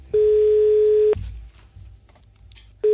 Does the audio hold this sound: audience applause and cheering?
no